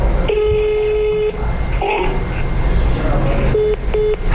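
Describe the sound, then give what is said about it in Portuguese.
Telephone tones from a call attempt that drops: a long, steady beep, then two short beeps near the end, over a noisy background. “Há até uma gravação automática que parece que vai dar instruções mais claras. Mas na nossa tentativa de ligar, a comunicação caiu.”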